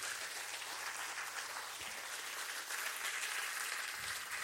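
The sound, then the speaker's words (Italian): Steady applause from an audience fills the whole stretch: a dense, even wash of many hands clapping, with no pauses and no voices. “Un applauso, scusate, non a me.”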